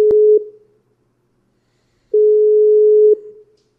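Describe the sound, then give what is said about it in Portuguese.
Ringback tone of an outgoing phone call that goes unanswered: the tail of one steady mid-pitched tone, a silent gap of nearly two seconds, then a second tone lasting about a second before it cuts off. “Vamos ligar pra ele. Ah, não quer atender.”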